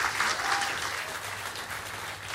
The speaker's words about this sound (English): of course the lefties in the audience are clapping.